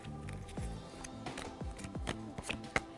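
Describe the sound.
Tarot cards are shuffled for a reading, giving quiet papery riffles and a few sharper slaps and flicks as the deck is worked.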